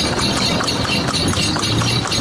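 Clip-clop of a horse pulling a cart, with quick, steady hoofbeats over a dense, rumbling background.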